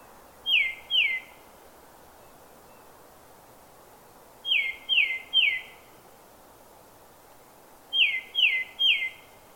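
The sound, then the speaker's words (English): Tufted titmouse song in a New Hampshire forest: three bursts of clear, high whistled notes, two in the first phrase and three in each of the next two, every note a quick downslurred whistle over faint steady hiss. “Let's listen to the song of a tufted titmouse, recorded in a New Hampshire forest.”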